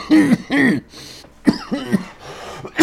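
Harsh coughing and throat clearing after inhaling a gnat, in a few abrupt bursts: two longer rasping hacks, then a quick cluster of shorter coughs and a final sharp one.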